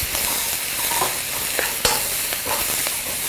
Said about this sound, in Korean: 자, 목이버섯도 넣고 오이도 약간만 더 넣을까요? 오이도 약간 더 넣으시고 볶아주세요.